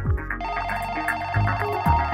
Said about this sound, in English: Suddenly the phone rang